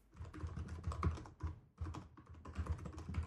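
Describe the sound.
Faint, rapid typing as a short message is written to a sister: many light, irregular key clicks in steady runs with a brief pause midway.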